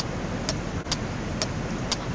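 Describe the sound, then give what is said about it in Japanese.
Car windshield wipers sweep through heavy rain on a mountain road. Four regular swishes, about half a second apart, cut through a steady, dense roar of rain and road noise. “すごい雨だな。ワイパーが効かないよ。”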